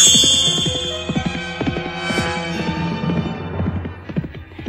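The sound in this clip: Horse hooves clip-clopping, a horse ridden up to a sorcerer's castle at the edge of a forest in a fairy tale, with many rhythmic hoof strikes heard under sustained music.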